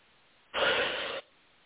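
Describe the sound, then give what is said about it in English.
One deep breath, a smooth airy rush lasting well under a second, fairly quiet and alone against a soft background hiss during a guided meditation. “Go ahead and take one more deep breath.”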